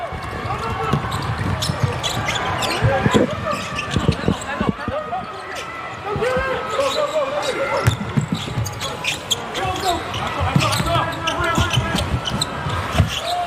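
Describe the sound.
Men's basketball at the Asian Games, China versus Philippines: many sharp ball bounces and court noises over a murmuring crowd, under continuous Chinese commentary.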